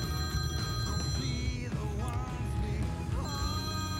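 An unanswered telephone rings with a steady electronic tone that holds throughout, over a constant background noise.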